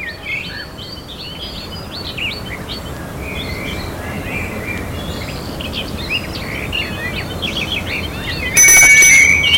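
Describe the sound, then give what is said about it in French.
A bell rings at a garden gate, sounding as one short, loud, bright burst near the end, over steady birdsong that chirps and twitters throughout. “On sonne au portail.”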